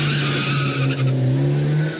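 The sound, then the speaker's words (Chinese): Car tires squeal and skid over a steady engine drone as a car speeds off toward a scene, loud and continuous for about two seconds. “X 神探和警察局长立即开车赶往案发现场。”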